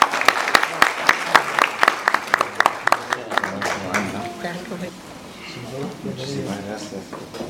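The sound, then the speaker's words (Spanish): Audience applause at an annual communications award ceremony: many sharp, dense claps ring out loudly for about three and a half seconds, then thin out and fade as a man begins speaking. “Fuerte el aplauso.”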